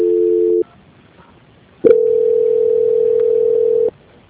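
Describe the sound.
Telephone line tones sound during a call transfer on a customer service call. A short steady tone is followed by a quiet gap, then a loud, continuous tone lasting about two seconds that stops abruptly.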